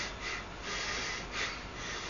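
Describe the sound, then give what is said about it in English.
A person imitates short, shallow breathing while teaching meditation, with a few quick, faint breaths through the nose that sound soft and airy, and no talking. “Normally when you breathe, you're breathing too short,”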